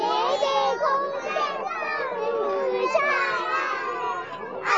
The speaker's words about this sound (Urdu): یہ کچھ بچیاں ہیں یہاں پہ جھولا جھول رہی ہیں اور نعت بھی پڑھ رہی ہیں